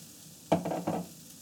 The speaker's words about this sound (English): we're gonna add the bottom of the fennel that we chopped up. We're gonna caramelize.